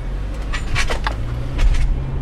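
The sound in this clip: A car driving from Tel Aviv down to the West Bank toward South Mount Hebron gives a steady, low road rumble, with a few brief higher clicks and knocks above it.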